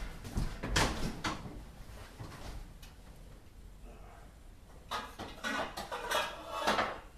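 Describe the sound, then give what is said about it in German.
A cooking pot being handled in a kitchen while preparing pasta gives a few faint metallic clanks and knocks of cookware, with rummaging and clatter coming in clusters. “Kochtopf her für die Nudeln. Wasser.”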